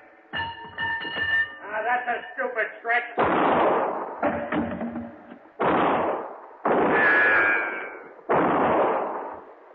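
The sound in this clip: Four loud gunshots crack out in an old-time radio detective drama set in a warehouse. Each is a sharp blast with a lingering tail, and they come after a stretch of voices.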